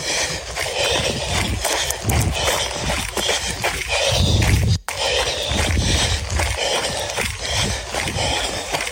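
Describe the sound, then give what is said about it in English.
Footsteps of a runner on a trail, a steady rhythm of scuffing, crunching strides over dense continuous noise, with a brief dropout near the middle. “All right, so here, I'll put this on for everybody. You should be able to listen to the steps.”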